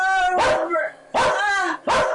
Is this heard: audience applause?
no